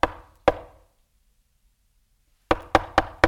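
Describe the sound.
Knocking on a door: two sharp raps, a pause, then four quicker raps in a row. Each knock is crisp and dies away quickly.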